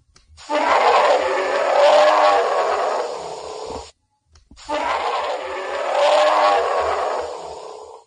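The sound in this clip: Grizzly bear roars, two long, deep, rasping bursts of about three and a half seconds each, loud and alone, with a brief silent gap between them.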